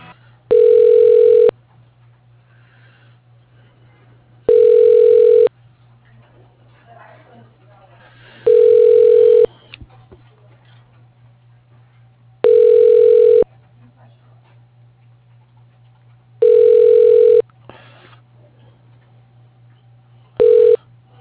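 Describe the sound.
A telephone ringback tone sounds while a call is transferred to an extension: evenly spaced mid-pitched bursts about four seconds apart, five full rings and a sixth starting at the end, over a steady low hum.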